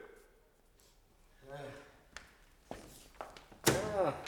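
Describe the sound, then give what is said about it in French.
Knocking on a door in a French dramatization of Ibsen's A Doll's House: a few sharp wooden thuds, fairly quiet, with speaking voices just before and after. “c'est gentil à toi de ne pas passer devant notre porte sans frapper”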